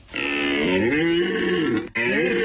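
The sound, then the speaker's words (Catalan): Red deer stag bellowing during the rut in the Pyrenees: a loud, deep, drawn-out roar with rich harmonics and a wavering pitch, which breaks off briefly near the end and then resumes. “La brama del cèrvol”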